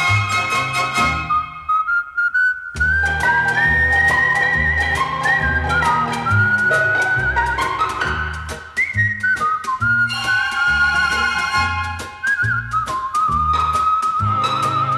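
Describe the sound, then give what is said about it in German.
A person whistles a lilting tune over steady instrumental accompaniment. The clear, bright melody steps up and down in pitch and carries on almost without pause throughout. “Dann komm ich und pfeife bei dir vor der Tür. Ich pfeife aus Liebe zu dir.”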